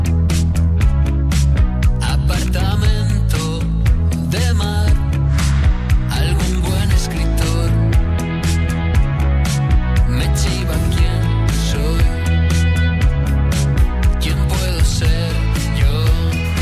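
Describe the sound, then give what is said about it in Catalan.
A song from a band's album plays loudly and alone, with a full-band arrangement driven by a steady, punchy percussive beat throughout. “un àlbum que vau publicar ara fa gairebé un any i que sona així de bé.”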